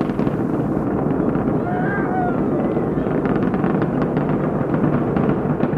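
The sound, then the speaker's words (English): Space Shuttle Atlantis, carrying a Russian docking module, lifts off in 1995 with a loud, continuous roar of rocket engines and steady crackle, and a brief voice is heard early on. “3, 2, 1, and liftoff of Space Shuttle Atlantis with the Russian docking module”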